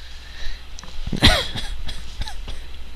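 A single harsh cough bursts out in the middle, set among faint breathy throat noises from someone struggling not to laugh or cough.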